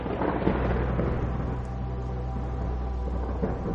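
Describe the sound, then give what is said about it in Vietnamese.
Thunder and rain hitting a window during a storm: a dense, steady low rumble with a constant wash of noise over it. It stays at an even, moderate level throughout, with no separate thunderclaps or individual drops standing out. “Ở bên ngoài trời bắt đầu có sấm chớp, kèm theo những hạt mưa bắt đầu rơi xuống bắn tung tóe lên cửa sổ.”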